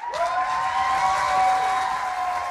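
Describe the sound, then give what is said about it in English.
A church audience applauds to welcome a guest speaker, a broad wash of clapping at a fairly loud, steady level. A sustained tonal hum runs beneath the clapping throughout. “So, I want you guys to give a rowdy and warm family welcome to my dear friend, Billy Eilend.”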